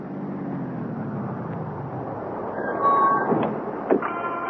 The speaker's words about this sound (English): Taxi! Taxi!